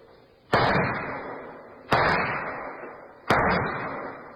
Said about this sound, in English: an FBI agent is practicing at an indoor pistol range. He is firing his last rounds as Agent Jim Taylor approaches.